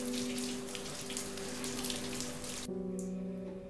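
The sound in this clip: Shower water runs from a showerhead onto a woman's back in a steady, dense hiss. The spray cuts off abruptly near the end, leaving a low hum behind.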